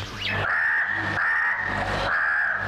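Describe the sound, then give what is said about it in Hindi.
Harsh crow caws come in a few drawn-out, raspy calls one after another, loud and steady with no pause in level and no voices. “कौवा उनके पास पहुंचा और बोला,”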